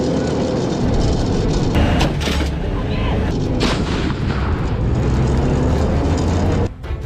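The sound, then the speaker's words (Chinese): An armoured vehicle fires a round as it nears the end of a 30-metre slope firing course and comes almost to a stop. A loud, continuous heavy rumble runs throughout, with a few brief sharper bursts. “我们在最后的时候，马上要斜向路要到头了，马上要结束了，车辆马上快停的时候，才把这发弹打出去。”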